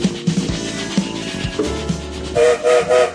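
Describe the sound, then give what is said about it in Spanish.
Steam train whistle sounding as the train departs, over loud rolling rail noise; near the end, three short, loud, tonal whistle blasts follow one another. “¿Escucharon el silbato? Estamos en marcha”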